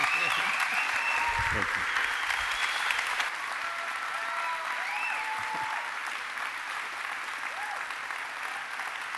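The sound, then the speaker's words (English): A church audience gives a standing ovation with sustained, dense applause that continues throughout at a steady level, with voices mixed into the clapping. “How about a spontaneous standing ovation for Ernest as he comes and shares God's word?”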